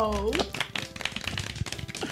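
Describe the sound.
A theatre audience claps during a stage play, a brief patter of scattered hand claps lasting around two seconds, with a voice heard at the start.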